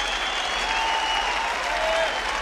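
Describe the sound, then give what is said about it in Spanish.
Audience applause welcoming a guest guitarist, a dense, even wash of many hands clapping that holds steady for the whole stretch, with no voices rising above it. “Un fuerte aplauso para el gran Danielón.”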